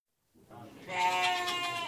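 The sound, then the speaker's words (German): Trained performing goats bleat in one long, loud, quavering harmonic call that rises out of a soft shuffle and holds steady to the end, with no talk over it. “Mit Ziegen? Kann man die denn dressieren?”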